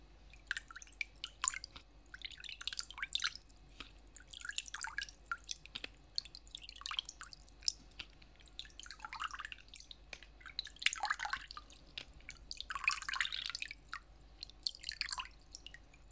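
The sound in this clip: Water drips while a bath is being prepared: many soft, irregular drips and small splashy ticks fall quietly over a low, constant background hum, with no voices.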